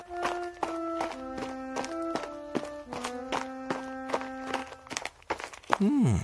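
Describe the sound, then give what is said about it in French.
Elijah's footsteps in a children's Bible story tap out a steady series of many walking steps over soft, sustained music. “Élie marche jour et nuit, 40 jours et 40 nuits.”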